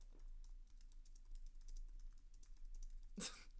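Fingers type on a computer keyboard, making many light, quick clicks in an uneven rhythm. The typing is faint throughout, and one sharper keystroke stands out near the end.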